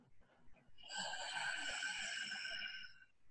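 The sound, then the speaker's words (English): A whispered inhale is drawn through the back of the throat: one soft, steady, breathy hiss that lasts about two seconds and then fades. “you'll hear that whisper in the back of your throat, and you'll feel that whisper in the back of your throat. And it sounds like this, the inhale,”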